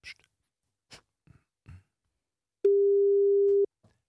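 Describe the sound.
A telephone ringback tone while calling someone: a single steady beep lasting about one second at a low-mid pitch, preceded by a few faint, soft noises.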